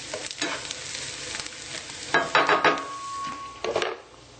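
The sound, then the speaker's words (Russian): Onion frying in a pan as it is stirred: a soft, continuous sizzle broken by several louder scraping strokes of a utensil against the pan, with no voices. “И добавляем лук. Лук поджарился.”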